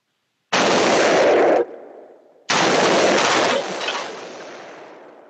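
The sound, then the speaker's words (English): Machine gun fire in two loud, roaring bursts, each lasting about a second and separated by a short gap, with a lingering rumble fading away after each burst. “So there's the show. First machine gun shoot.”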